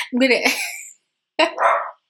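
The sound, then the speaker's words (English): A dog barks twice, loud and sharp, with a brief silence between the two barks. “He's barking. I'm not sure if you can hear him. I don't know why he picks when I'm recording the podcast to start barking.”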